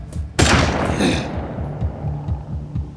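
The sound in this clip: Rifle gunfire: one sharp, loud report with a long ringing decay, set against a low, rumbling background.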